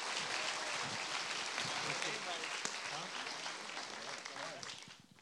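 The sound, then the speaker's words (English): A church audience at Renew Life Church applauding a guest speaker, dense, sustained clapping that holds steady, then tapers off near the end. “Hey, let's give Pedro Latorre a big Renew Life Church welcome. Come on, give it up for him.”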